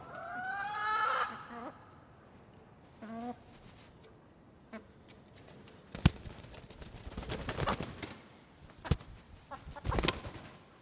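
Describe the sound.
A hen on a farm clucks a few times, then flies down from her roost with several loud bursts of wing flapping and fluttering.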